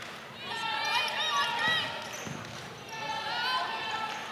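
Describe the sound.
A basketball is dribbled on a court during a women's game, with a few faint bounces under a commentator's steady talk.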